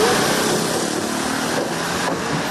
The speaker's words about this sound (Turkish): Viyadük'te güçlendirme çalışması başladı. İstanbul TEM Otoyolu'nun Anadolu yakasında yoğun trafik oluştu.